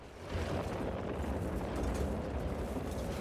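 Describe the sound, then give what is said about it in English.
Deep, rumbling blast of a bomb striking a house, a sustained low roar of fairly modest loudness that swells and lingers as debris settles. “There's a flash of light as the house is struck by a bomb.”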